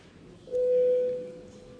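A steady, mid-pitched electronic tone sounds once as a bell is rung to call a parliamentary vote. It rises abruptly, holds for under a second, then fades, with no talk over it.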